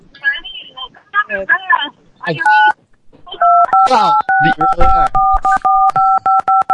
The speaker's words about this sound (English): Are they gonna press buttons again? Like, what the fuck? Yeah, go press some more buttons.